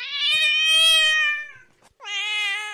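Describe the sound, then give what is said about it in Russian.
A cat meows twice, first a long, loud, drawn-out cry, then after a brief pause a second clear meow that runs to the end, with no talk. “Кошка, которую тем временем жажда стала еще больше мучить, на вопрос пажа могла ответить только...”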